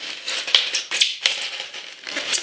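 Box tape sliced with a detaper tool while opening a Stan Lee statue box, heard as a few quick scraping, crackling cuts in close succession, fairly loud and with no voices.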